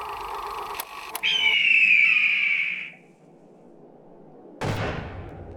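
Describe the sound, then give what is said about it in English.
Gunshots are fired at someone on foot: two sharp cracks, then a long high whine that fades away, followed after a pause by a louder blast with a decaying tail, with no voices. “Goddamn, 20 minutes in and I'm already being shot at.”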